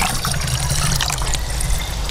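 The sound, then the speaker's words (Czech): Water trickles and splashes as it is drawn with a sampling rod to collect a water-column sample away from the shore, from a metal structure. The sound is a continuous, fairly loud gurgling flow with small irregular splashes. “Bere se vzorkovací tyčí, protože se potřebuje odebrat vlastně sloupec vodní.”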